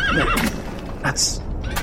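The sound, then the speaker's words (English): A horse whinnies with a quavering, wavering pitch at the start, followed by a few sharp clip-clop hoof sounds, with a voice talking over it. “Ooh, horse! Whoa!”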